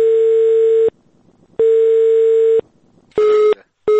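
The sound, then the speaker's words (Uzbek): Telephone line tone after the far end hung up: a loud, steady, single-pitched beep that repeats in an on-off pattern with short silent gaps, the later beeps coming shorter and quicker. “telefon go'shagini qo'yib qo'yishdi va qo'ng'iroqlarimizga boshqa javob berilmadi”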